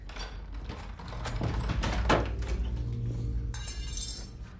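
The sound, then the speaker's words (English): A door being eased open slowly and carefully: faint mechanical clicks and soft creaking rattles spread across the whole stretch, with a thin, bright scrape near the end. “After a moment, she eases the door open.”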